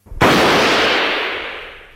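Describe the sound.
Hunting gun fired at a duck: one loud, sharp blast with a long, broad tail that fades slowly over about two seconds, with no voices.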